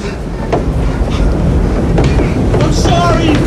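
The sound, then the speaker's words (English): Train doors closing and a train departing: a steady, loud rumble of rail cars with faint clicking, while voices shout over the noise. “The train doors close.”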